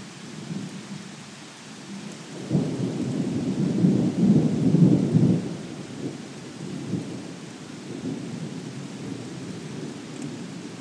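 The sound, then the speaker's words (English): Thunderstorm with steady rain and rolling thunder: a deep rumble swells and peaks in the middle before easing back, while the rain hiss continues throughout. No voices. “So anyway, that is the thunderstorm so far.”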